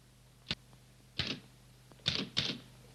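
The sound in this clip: Typewriter keys are stabbed reluctantly, producing four separate sharp clacks at uneven intervals. The strikes are faint against a quiet background, with no talking.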